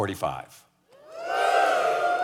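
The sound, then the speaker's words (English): A church audience cheers after a preacher's brief words, a swelling, sustained shout of many voices that rises and holds to the end. “Yes, I only come for the cheer.”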